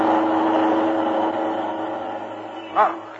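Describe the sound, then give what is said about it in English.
A car engine drones steadily as the vehicle speeds up a street toward someone, with one brief louder surge near the end. “That car is headed right at you!”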